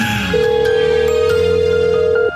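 A telephone tone on a phone call: one steady, mid-pitched beep holds unbroken for about two seconds over a faint background, then cuts off.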